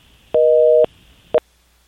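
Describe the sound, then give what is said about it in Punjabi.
Busy tone after a dropped telephone line: one steady dual-pitched beep lasting about half a second, then a second beep cut short, over faint line hiss. “ਤੁਹਾਡੀ line drop ਹੋ ਗਿਆ ਜੀ।”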